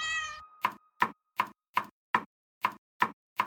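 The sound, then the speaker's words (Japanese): A cat gives a short, bright meow. It is followed by eight evenly spaced sharp knocks, each one clipped and identical, with silence between them. “あ、猫。”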